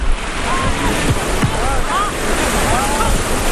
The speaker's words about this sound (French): La plage est magnifique, l'eau turquoise, le sable noir et les collines autour sont verdoyantes.